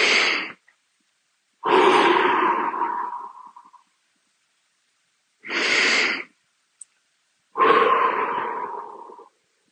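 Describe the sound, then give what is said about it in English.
Breathing while lying down, in through the nose and out through the mouth: a short inhale, then a long airy exhale that slowly fades, the pair repeated twice with quiet pauses between. “take a breath in through your nose and then a long exhale out of your mouth. So something like,”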